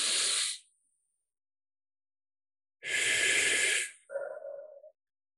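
Slow, deep breathing on its own: a short airy breath, then after a pause a longer hissing inhale, followed by a softer, lower exhale.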